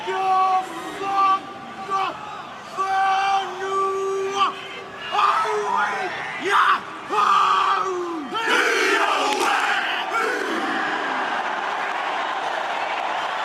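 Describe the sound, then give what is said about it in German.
Maori haka war dance chanted by the New Zealand national rugby team: many male voices in loud rhythmic unison chant, broken by sharp accented shouts and crowd noise, growing rougher and more forceful toward the end. “Was du hier hörst, ist der Haka, der maorische Kriegstanz.”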